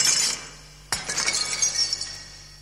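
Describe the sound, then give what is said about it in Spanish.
Glass and lamps are smashed with a long broom handle. Light tinkling gives way to a sharp crash of shattering glass, followed by a long spray of clinking, falling shards that slowly thins out. “Descubrieron una escoba y con su largo mango intentaron hacer añicos cuanta lámpara y cristal quedaban a su alcance.”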